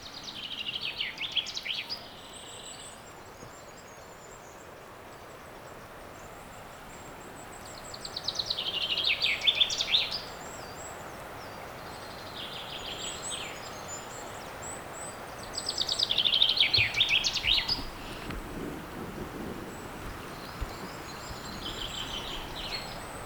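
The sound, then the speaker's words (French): Birdsong in a forest: bright, high chirping and trilling comes in a few louder bursts at intervals over a soft, steady background hiss, with fainter calls between them. “Mais avant cela, la forêt et les oiseaux vous saluent.”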